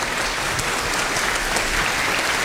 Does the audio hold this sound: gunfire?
no